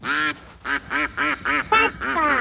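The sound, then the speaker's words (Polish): A duck quacking in a rapid run of loud, nasal, harsh quacks with short gaps between them, heard alone. “Kaczka!”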